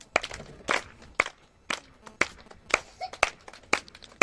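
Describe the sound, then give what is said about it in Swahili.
A group claps hands together in a church: many sharp claps on a steady beat of roughly two per second, with softer scattered noises between them. “Tupige makofi.”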